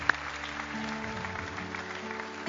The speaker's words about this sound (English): Let's give these folks a hand clap as they're coming.